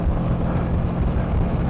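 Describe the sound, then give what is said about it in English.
A motorcycle carries a passenger riding on the back while lane splitting through traffic, giving a continuous, loud low rumble of engine and road mixed with buffeting wind noise and no break. “Did you ride a motorcycle while you were out there? I did. I hopped on the back of Liza's bike.”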